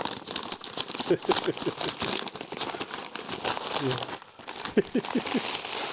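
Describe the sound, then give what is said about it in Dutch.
Gift wrapping paper crinkles and tears as a present for a dog is unwrapped, with several bursts of crumpling throughout and people talking over the rustling. “Is een cadeau voor de hond mag jij mogen uitpakken.”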